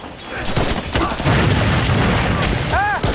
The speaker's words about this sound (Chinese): 快炸！快炸了！快扔啊！